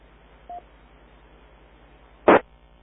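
Telephone dialing tones from a number being dialed: a short, faint beep, then after a pause a louder, brief burst, standing alone over a low, steady background hum.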